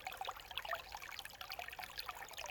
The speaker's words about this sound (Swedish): Just nu sitter jag vid en liten bäck i skogen som rinner ut från en källa. Ni kanske hör porlet som porlar här i bakgrunden.